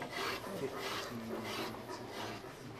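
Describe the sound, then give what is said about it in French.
A hand file rasps against wood, rounding the body of a guitar in a steady series of scraping strokes that stay faint and even in rhythm. “Je vous vois montrer comment utiliser cette lime à manche qui est prise là pour arrondir, yes, pour faire la forme du corps de la guitare.”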